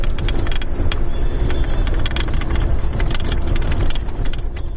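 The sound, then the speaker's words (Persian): Humvee armoured vehicles drive, carrying Afghan forces into Tarinkot, as a constant low rumbling roar mixed with dense crackling and rattling noise, loud and unbroken throughout. “این صدای زره پوشهای هاموی است”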